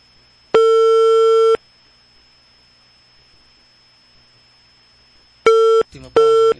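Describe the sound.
An unanswered call to a village hall landline: a steady electronic tone lasting about a second, then a long silent gap, then the tone returns. A brief voice-like sound cuts in near the end.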